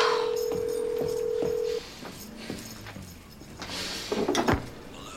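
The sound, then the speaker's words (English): A telephone is dialed to place an urgent call. A steady dial tone sounds first, then a series of short keypad beeps follows, mixed with some quieter clattering handling noises. “Where's the phone? Give me the phone! We'll call the police.”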